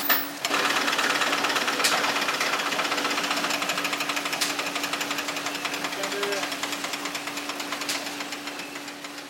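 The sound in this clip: A textile carding machine in a mill scrapes fibres into a thin web, making a continuous, steady mechanical rattle with a low hum and faint regular clicks running throughout.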